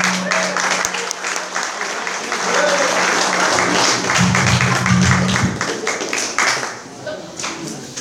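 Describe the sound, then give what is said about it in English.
An audience claps to welcome a speaker, dense sustained applause that keeps up for several seconds, then tapers and thins out, with voices mixed in. “Then I'd ask that you please help me welcome Wayne B. from Inglewood.”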